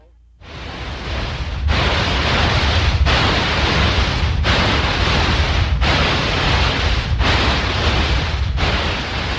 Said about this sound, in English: People with tinnitus hear a sound like this all the time.